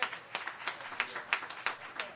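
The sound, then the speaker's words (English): Church audience hand clapping in a steady rhythm: seven strong, evenly spaced claps about a third of a second apart, with softer claps filling the gaps between the beats. “Let's give Pastor Pickens a hand clap.”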